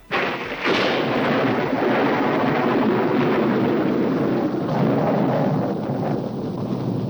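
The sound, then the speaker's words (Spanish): A widely used stock thunder sound effect: a sudden crack opens into a long, loud, rolling rumble that holds steady for several seconds, with a slight renewed swell late on before it eases. “escuchemos este trueno del castillo”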